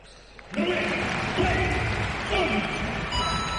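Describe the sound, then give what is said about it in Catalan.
A basketball crowd applauds and cheers in a sudden broad swell of noise after a brief quieter opening, then holds steady, with talk over it. “El públic aplaudeix. El públic anima.”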